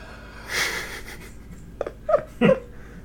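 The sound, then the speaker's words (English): Heavy, labored breathing of a woman hiding in a closet: a few loud, wheezy gasps, some of them voiced, coming in uneven bursts after a quieter start. “She is breathing really hard for a person that's trying to hide.”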